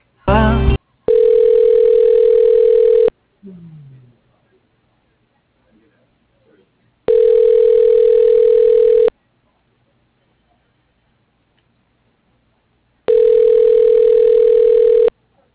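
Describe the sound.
Ringback tone while a call is transferred to an extension: three steady, evenly spaced rings of about two seconds each, separated by long silences, after a brief opening burst of dialing tones.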